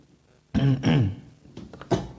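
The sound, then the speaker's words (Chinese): Someone clearing their throat: a few short, rough voiced rasps, the first longest and loudest, with a smaller one near the end. “清下嗓子，不然怎么感觉就就像这个黑社会老大在讲话一样啊？”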